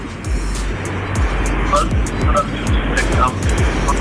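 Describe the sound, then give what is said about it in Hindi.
Steady low engine and road rumble from a car being driven while its driver talks on a phone call, with faint passing swells under the voices. “आप बताइए, मुझे लग रहा है कि आप इस वक्त शायद ड्राइव कर रहे हैं”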